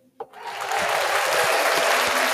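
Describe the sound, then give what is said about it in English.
A soundboard applause effect begins with a single click, then swells into steady, dense clapping that holds at an even loudness to the end, with no voices over it. “Applause to you for watching The Grinch. We have a soundboard”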